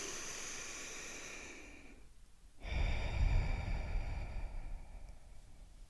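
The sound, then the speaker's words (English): A deep breath is drawn in as a soft, airy hiss for about two seconds. After a brief pause comes a longer, fuller exhale with a breathy rush, quiet and close. “Let's begin by taking a deep breath in and a deep breath out.”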